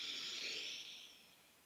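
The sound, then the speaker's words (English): A deep breath drawn in during a guided breathing exercise, a soft, airy hiss that is fairly faint and gradually fades away over less than two seconds, with no talking. “In fact, let's take a breath together.”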